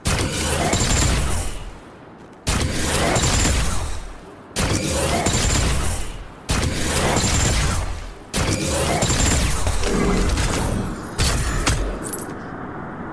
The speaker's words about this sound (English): Let's listen to the sound of the Dreambreaker fusion.